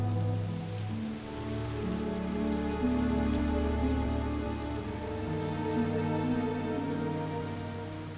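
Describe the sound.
Heavy rain pours down in a steady, dense hiss near a waiting plane, constant and full throughout, with sustained low musical tones shifting underneath.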